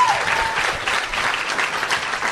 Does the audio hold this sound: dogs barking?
no